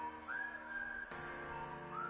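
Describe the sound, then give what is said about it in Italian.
A whistled tone glides up into a long, steady held note, breaks off midway, then slides upward again near the end, sitting over a dense sustained harmonic background. “E il fischio alla fine fa la differenza.”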